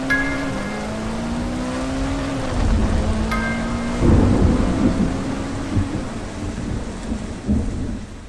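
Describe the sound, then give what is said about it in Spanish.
Heavy rain pours steadily while thunder rumbles through it, with deep rolling swells rising in the middle before easing back into the constant hiss of the downpour; no voices. “Llovía demasiado.”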